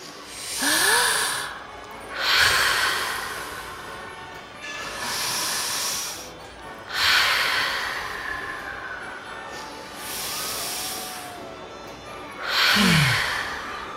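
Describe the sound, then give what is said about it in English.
Slow, deep breaths are taken together to calm down, six long, breathy swells that rise and fade in an even, unhurried rhythm, with no talking. “I stop and take a big, deep breath. Maybe we can do that? We can try.”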